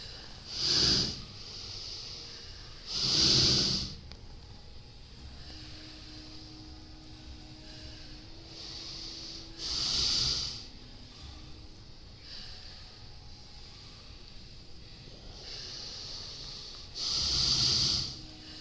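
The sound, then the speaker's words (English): Deep diaphragmatic breathing during a yoga exercise: four forceful, hissing breaths, loud and widely spaced with long quiet stretches between them, and no talking. “Make big diaphragmatic movements. Move that breath deeply.”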